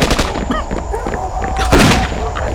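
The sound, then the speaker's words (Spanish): Gunfire in a Spanish-language radio drama battle scene: a dense, noisy din with a sharp, louder burst near the end, while shouting voices carry through the clash. “me dispararon!”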